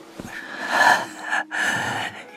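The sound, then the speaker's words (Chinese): Exhausted man collapsed on a bed, panting weakly: drawn-out, breathy, ragged breaths that swell, break briefly, then resume in a long, rasping exhale. “夏侯炼已经虚脱了，倒在床上低低的喘气”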